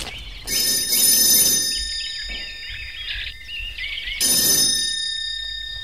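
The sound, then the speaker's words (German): A doorbell rings at a house with a bright, metallic, electric-bell ringing in two long, loud bursts separated by a quieter stretch with faint tonal traces. “Na, ich klingel mal.”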